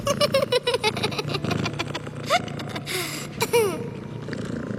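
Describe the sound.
Cats purr in a steady, pulsing low rumble that runs throughout, joined by a few squeaky, sliding chirps and rustling bursts; the opening second is especially dense with rapid rhythmic pulses.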